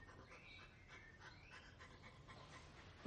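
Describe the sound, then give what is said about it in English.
A small dog pants softly and rhythmically on a bedroom floor, with faint whimpers, and a brief louder bump comes at the very end. “He rubs his face against the head of a small dog. Its tail wags.”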